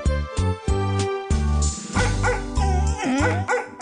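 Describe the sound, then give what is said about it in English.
Dogs barking: many sharp, loud barks mixed with high yips and whining cries, coming in quick irregular bursts. “the damn barking dogs”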